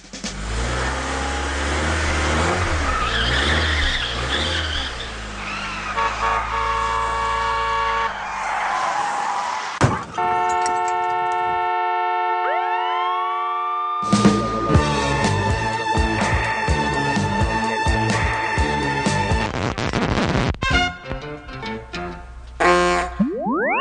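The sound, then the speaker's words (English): A car speeds through an intersection: loud, continuous engine and skidding effects mixed with bright, sliding boing-like tones that shift in timbre and include abrupt changes partway through. “you should aim to spend as little time as possible driving through intersections by travelling as fast as you absolutely can through any and all intersections you drive through, like so.”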